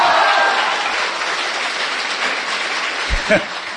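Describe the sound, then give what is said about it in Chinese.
Audience applause for actors at a live comedy show: a thick, even wash of clapping from many hands, easing slightly toward the end, where a brief low sound breaks through. “谢谢朋友们的掌声。 哎，鼓励。 如果说您这个掌声再热烈点会更好 啊。”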